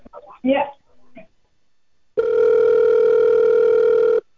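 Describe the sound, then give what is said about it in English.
A telephone ring tone sounds while a call is put on hold: a single loud, steady electronic tone lasting about two seconds, after a short stretch of talk and a brief pause. “please hold for one second. You may hear a brief pause. You might hear a ring.”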